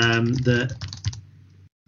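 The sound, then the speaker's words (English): Computer keyboard keys struck hard, giving a few sharp clacks after a voiced stretch at the start, with a low hum beneath and one more abrupt burst right at the end. “I bang the keys hard there because I didn't want people thinking”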